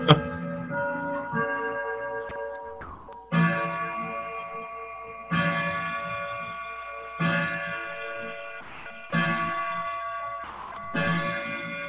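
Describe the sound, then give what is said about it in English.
A grandfather clock chimes in a slow series of resonant strikes, roughly every two seconds. Each rings on in a long, decaying metallic tone, and no voices are heard. “I like how your grandfather clock goes off when Jason kills somebody.”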